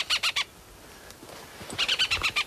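Farmland birds giving alarm calls near a hen harrier nest on Texel: a quick burst of three sharp, high chirping calls, a short pause, then a longer rapid series of similar calls.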